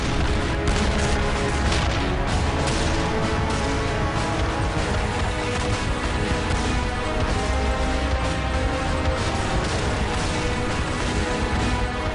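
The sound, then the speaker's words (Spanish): Battle din from tank warfare at El Alamein as an armored vanguard closes on defensive lines. Explosions and gunfire crowd together in a continuous, loud barrage with no pauses or voices. “Un ruido terrible. Enormes explosiones.”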